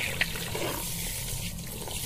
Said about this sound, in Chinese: 先冲水，冲完我告诉你